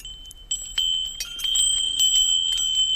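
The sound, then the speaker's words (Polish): Small Buddhist temple bells in Burma chime in the wind: many light, overlapping strikes ring out in high, sustained metallic tones that build after a brief quiet start and keep shimmering steadily to the end. “A kiedy wieje wiatr, to te dzwoneczki wygrywają właśnie takie koncerty.”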